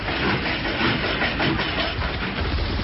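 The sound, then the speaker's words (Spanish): A train sets off from a station with a continuous, even rumble of engine and rolling wheels. The dense, steady noise holds at the same loudness throughout. “Subite a nuestro tren. En este momento partimos desde tu estación de radio.”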